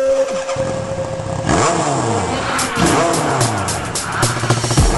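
A motorcycle engine revs hard in repeated surges, its pitch sweeping up and down several times in a loud, continuous roar.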